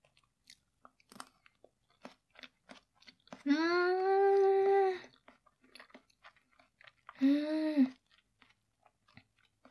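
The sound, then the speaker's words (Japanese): Quiet, crunchy chewing while eating a freshly made dish with a rich sauce: scattered soft clicks and crunches, broken by two drawn-out hummed vocal tones of enjoyment. “まだ食べ始めたばっかりなのに。”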